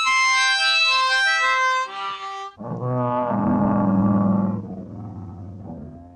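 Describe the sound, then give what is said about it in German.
Bears roar as they attack a grand duke in a children's audio drama: a loud, deep, sustained roar that follows a brighter tonal opening, then fades somewhat toward the end. “Brüllend fielen die Tiere über den Großfürsten her. Der Bösewicht warf sich zu Boden und winselte wie ein Hund, aber die Bären brachten ihn rasch zum Schweigen.”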